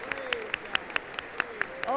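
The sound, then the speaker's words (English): Steady rhythmic clapping from a church audience in a praise service, about nine sharp claps at an even beat under singing and speaking voices. “Let's give Him a good clap offering tonight.”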